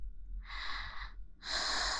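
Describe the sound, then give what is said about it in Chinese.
Two deep sniffing inhales through the nose, separated by a brief pause, the second longer and fuller than the first, heard alone over quiet. “所以你现在要做的就是好好的闻，深呼吸的闻，”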